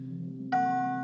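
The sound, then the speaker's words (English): A synthesized chime from a data sonification tracking the pound against the dollar around the Brexit vote, one chime per day: a single bright, ringing note that strikes over a steady low drone and slowly decays. “This is the sound of the pound against the dollar. Each chime is a passing day. The higher the note, the stronger the pound.”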